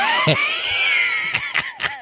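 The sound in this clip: Cat meowing: a long, drawn-out, high meow followed by a few short, quick meows, loud and alone.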